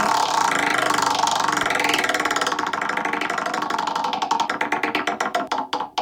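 A prize wheel spun to pick a discussion topic gives a rapid, dense ticking from its pointer that steadily slows, the clicks spreading apart and growing more distinct until the wheel nearly stops.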